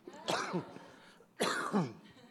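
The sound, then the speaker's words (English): Two separate coughs from a man, each a harsh, throaty burst with a voiced tail, spaced about a second apart. “I do cough, everyone. I have water.”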